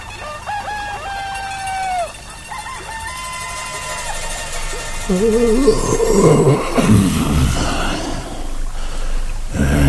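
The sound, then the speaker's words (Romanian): Roosters crow at night in a few drawn-out, wavering calls, then a louder, denser jumble of rustling noise takes over for the rest. “Cântă cocoșii în mielul nopții.”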